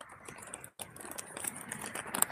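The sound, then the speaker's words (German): Soft crinkling of a paper receipt being folded, a run of small, irregular crisp rustles and clicks with a brief silent gap near the start, staying faint throughout. “Ich falte jetzt gerade den Brief zusammen, also den Zettel, den Kassenbon, den Kassenbon.”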